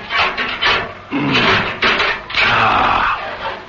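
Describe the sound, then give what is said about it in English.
A locked metal filing cabinet being forced open: a few rattling, scraping bursts of metal and drawer noise, fairly loud, with short gaps between them. “He found a metal waste paper basket and began filling it with papers from the locked drawer. Then he moved to the filing cabinet. It was, of course, locked, but that didn't present any problems.”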